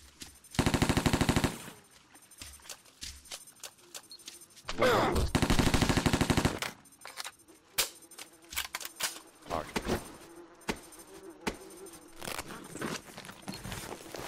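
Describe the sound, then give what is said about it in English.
MP5 burst fire in a video game: two long, loud, dense runs of rapid shots, followed by scattered faint clicks and sharp taps. “MP5 burst fire.”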